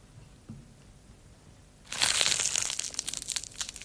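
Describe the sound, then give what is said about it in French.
Crushing of a lettuce heart: after a near-silent start with one faint tap, a dense burst of crisp crunching and crackling begins partway through and continues in many rapid, uneven snaps to the end. “Une salade. Oui. Ah oui. Wow. C'est le cœur de la salade qu'on une casse.”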